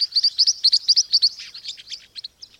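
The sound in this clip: Green-rumped parrotlet calls: a rapid series of many high, sharp chirps in quick rhythmic bursts, loud and clear at first, then becoming sparser and softer toward the end.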